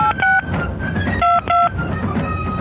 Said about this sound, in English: Wow, we're really dialing some numbers